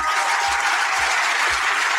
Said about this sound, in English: so I'd like a round of applause for them, please.